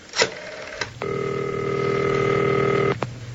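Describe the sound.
A telephone number is being dialed: a couple of brief clicks come first, then a long, steady electronic tone of about two seconds that cuts off with another click.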